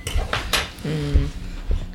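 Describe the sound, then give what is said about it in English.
Cutlery clinking and clattering as a spoon is fetched from a kitchen cutlery drawer while sushi is made from leftover salmon and rice; a few sharp metallic rattles and knocks, fairly loud. “Will you get us a spoon? I will.”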